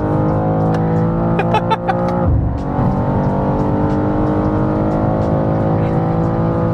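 A powerful car engine accelerates hard on a race track, a strong high-revving drone with a brief break at a gear change partway through, then pulling steadily again.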